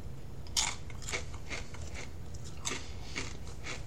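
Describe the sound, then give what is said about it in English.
Crunching of Jeff Foxworthy's Original Grit Chips, corn chips, being bitten and chewed: several crisp, brittle crunches spread irregularly across a few seconds, fairly faint over a steady low hiss. “I'm going to taste one right now just to make sure that I have a very fresh feeling of what I think of these. Yeah. So again, these are Jeff Foxworthy's Original Grit Chips.”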